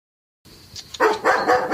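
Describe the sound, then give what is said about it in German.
Dog barking on a farm: a few sharp, loud barks in quick succession after a brief faint lead-in, with no voices. “Insgesamt hat sie drei Hunde.”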